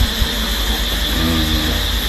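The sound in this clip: Engine of a running car heard from inside the cabin: a steady low hum with a faint mid-pitched harmonic tone, continuous and fairly loud, with no voices.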